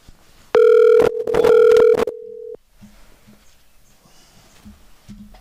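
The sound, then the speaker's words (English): A telephone is dialed to call someone: a loud burst of stacked electronic tones runs for about a second and a half and ends in a short steady tone, then the line falls to a faint hiss. “All right, and you can dial him up. Dialing him up.”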